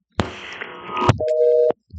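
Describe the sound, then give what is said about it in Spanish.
A telephone busy tone after a dropped call: a crackly burst of line noise gives way to a single steady mid-pitched beep lasting about half a second, followed by a faint click. “Ay, se me fue la llamada. Parece como si alguien hubiese intervenido ahí en la línea y se hubiese caído.”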